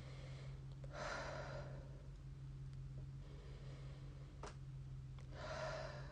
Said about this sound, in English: So I want you to inhale and exhale.